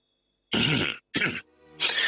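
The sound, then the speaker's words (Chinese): A man coughs and clears his throat in three harsh, breathy bursts separated by short gaps, heard alone with no talk. “项梁咳嗽了一声道”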